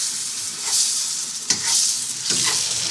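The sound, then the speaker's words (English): Pasta tossed with tongs in a hot frying pan with tomato and a little pasta water, a steady bright sizzle broken by a few soft scraping, stirring swells, with no voices. “So you're not worrying about the water going back into the pan there when you're tonguing it in?”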